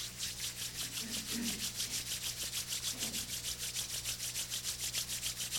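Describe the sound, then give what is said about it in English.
Palms rub briskly together during a guided relaxation exercise, a quiet and steady rhythmic swishing of many quick, even strokes. “Open the palms. Fold your palms. And rub the palms.”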